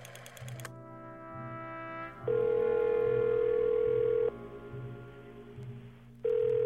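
Ringback tone of a call to a home phone that keeps ringing unanswered: long, steady, evenly pitched tones separated by pauses, over a low rhythmic buzz on the line.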